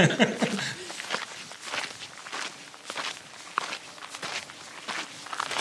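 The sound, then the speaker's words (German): Footsteps walking over cobblestone paving in narrow village lanes: many crisp scuffing steps in a steady, even walking rhythm, moderately loud against a light background hiss. “wir sind jetzt noch ein bisschen durch den Ort gelaufen. Und es ist ein sehr idyllischer Weg mit kleinen Gassen und mit Pflastersteinen.”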